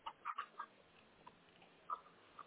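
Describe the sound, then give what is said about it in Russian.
Faint clucking of a chicken or similar fowl in a courtyard by the entrance of a residential building: a quick run of several soft clucks, a pause, then a couple more. “Да, тут рядом птица.”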